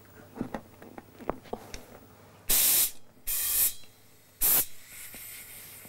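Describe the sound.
A volleyball is pumped up through an inflation needle: a few soft clicks and taps, then three loud, sharp hissing bursts of air, the last one shortest.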